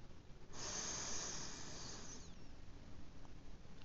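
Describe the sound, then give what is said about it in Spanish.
One long, deep breath during a guided relaxation breathing exercise. It is a soft, airy hiss lasting about two seconds, quiet and alone, and it fades into low background noise. “Vuelvo a respirar.”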